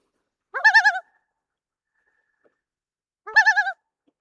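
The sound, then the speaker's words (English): Common loon giving its tremolo or laughing call: two rapid, wavering, quavering phrases, each under half a second, separated by a long silence, clear and alone. “So that's the tremolo, or laughing call, of the common loon.”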